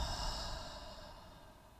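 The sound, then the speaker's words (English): A deep exhaled breath, a soft, airy rush of breathing that is loudest at the start and slowly fades over about two seconds, quiet and alone. “One more time, deep breath. Inhale in through your nose. And exhale, let it all go.”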